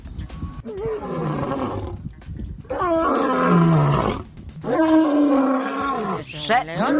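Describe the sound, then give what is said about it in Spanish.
Lion-like roaring at a zoo in Japan, three long, loud, growling calls with a falling rumble, separated by short gaps, and a fourth starting at the very end. “Sí, como un león.”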